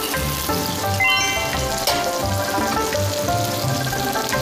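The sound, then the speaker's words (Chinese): Chicken sizzles as it pan-fries in its own fat and a little oil until the skin turns crisp. The frying is a steady, fairly loud, continuous crackle with no pauses. “好，这煎的差不多了， 你看我们这个煎的差不多了啊，表皮酥脆”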